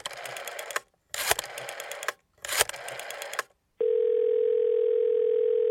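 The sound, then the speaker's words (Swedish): Telephone dial tone while a call is being placed: three short, harsh noisy bursts, then a loud, steady, unbroken hum that holds to the end. “Jag ska bara slå en signal.”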